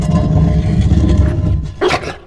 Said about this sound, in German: Aber dann bewegte sich plötzlich ein Teil der Wand. Und Johnny wäre fast in das schwarze Loch dahinter gefallen.